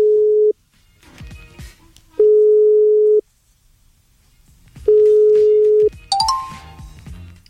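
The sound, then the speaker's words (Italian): An outgoing telephone call rings out with three steady, low beeps of the ringback tone, each about a second long and separated by silent pauses, then a brief different burst at the end. “No, lo chiamo, aspetta.”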